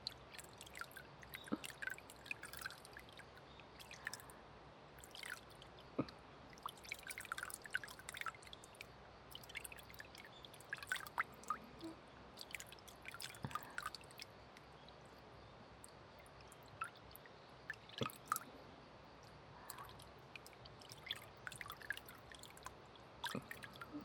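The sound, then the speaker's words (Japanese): Water runs while hands are rinsed at a mild temperature, a soft, continuous trickle with scattered drips and splashes, faint throughout with no talk. “手の油分を流しすぎない温度で流していきます。”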